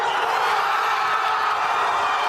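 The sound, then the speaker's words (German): Crowd cheering on the Plaza Colón in Madrid after Spain's late 2:1 goal against Belgium in the World Cup, a dense, steady roar of many voices at constant loudness throughout. “Der Jubel auf der Plaza Colón kennt keine Grenzen.”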